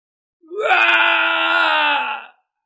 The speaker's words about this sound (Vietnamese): Truyền đến một tiếng thét to không cam lòng, Thạch Trung Hiên